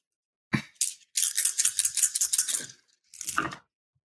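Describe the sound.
Dice rattle and clatter for a tabletop role-playing game's Dex plus firearms roll: two short clicks, then a long, busy rattle, and a final brief clatter after a pause.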